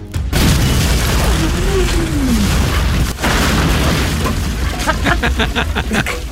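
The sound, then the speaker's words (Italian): A hand grenade explodes in a loud, sustained rumbling boom that fills the whole clip, briefly dipping near the middle, with a run of short, rapid bleeping pulses near the end. “Poi una bomba a mano in tasca, ma anche lì... per il Vietnam!”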